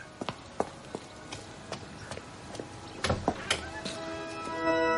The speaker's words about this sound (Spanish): Se aleja de la casa, avanza con paso veloz y regresa molesto a la iglesia.